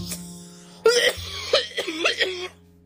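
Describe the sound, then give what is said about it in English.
A deep, harsh cough breaks into a rapid series of several throaty, rasping hacks, loud over a steady low hum. “that cough came from my fucking soul.”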